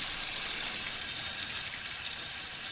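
Water running from a faucet into a sink while hands are scrubbed, a steady, even hiss and rush of flow with no break.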